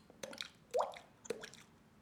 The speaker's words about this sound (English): you hear the drip of moisture inside this cave system.